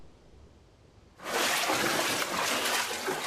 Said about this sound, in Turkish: Çarşamba ilçesinde evler ve tarım arazilerini su bastı.